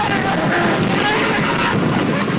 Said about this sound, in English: Cue the roller coaster sound. Now.